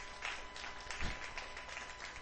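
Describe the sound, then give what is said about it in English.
Church audience clapping in a clap offering to the Lord during a sermon: a dense, steady wash of applause over a low hum, holding an even level for a couple of seconds. “Come on, give the Lord a clap offering.”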